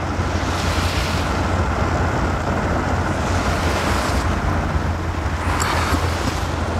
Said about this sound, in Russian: Автомобиль едет по Фрунзенской набережной в сторону Лужников.